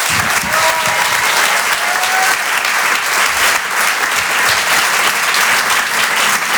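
Theatre audience applause greets a comedian's debut at the Polo Théâtre, a thick, continuous patter of clapping that stays loud and even throughout, with a faint whistle early on.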